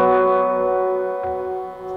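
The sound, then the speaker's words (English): An exaggerated big-room reverb effect from a Big Sky reverb unit washes over a held, harmonic tone that rings steadily for about two seconds, with a long, smeared tail and a slight dip in level near the end. “my three main exaggerated reverb sounds. This one is just kind of like a big room kind of thing.”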